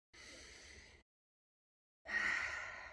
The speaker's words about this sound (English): I'm just going to take a deep breath to drop in.